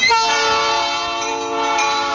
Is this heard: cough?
no